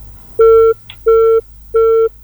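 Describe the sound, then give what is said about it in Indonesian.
A telephone busy tone after a call cut off: three loud, steady beeps of equal length, separated by short silent gaps, with a faint click between the first and second beep. “Ya, halo. Terputus kayaknya nih dari Polman, Sulawesi Barat.”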